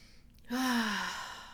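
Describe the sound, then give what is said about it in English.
A deep breath is released as a single long, voiced sigh that starts abruptly, drifts slightly downward in pitch and fades gradually, with no speech. “I want you to close your eyes for a second and take a deep breath.”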